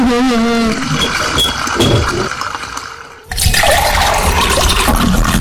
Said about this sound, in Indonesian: Lebih bagus kalau kerannya itu ditutup. Kan airnya jadi terbang percuma.